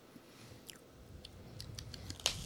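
Biting and chewing a hard, flattened lollipop candy: faint, soft crunches and crisp chews, a few scattered bites, with one sharper crack near the end.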